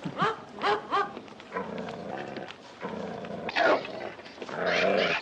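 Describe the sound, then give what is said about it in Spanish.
Growling from an ugly dog in Hawaii: several harsh, throaty bursts of varying loudness, a few sharper voiced calls near the start, then rough rumbling stretches and stronger bursts toward the end. “Creo que es este. Es el perro más feo de todos.”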